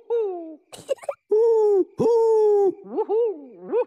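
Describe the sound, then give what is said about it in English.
Human voices imitating owl hoots: several loud, sustained hooting notes, some with a bending rise-and-fall inflection, traded back and forth with short gaps and a few breathy noises between calls. “Oh, it was just you and me doing owl calls.”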